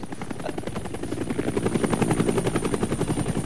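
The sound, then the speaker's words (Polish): A papal helicopter taking off, with rapid rhythmic rotor thumping over a turbine whine that grows gradually louder. The beat is fast and even, and there is no talking. “Z miejsca startu zawsze startował pierwszy śmigłowiec papieski.”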